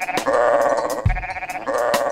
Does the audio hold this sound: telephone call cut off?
no